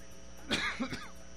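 A short cough in a couple of rough bursts, fairly faint against a steady low hum, with no talk around it.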